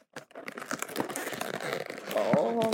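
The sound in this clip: Crinkling plastic packaging as a nose hair trimmer is unwrapped: continuous crackling and rustling that runs nearly the whole time, starting after a brief quiet moment and growing somewhat fuller toward the end.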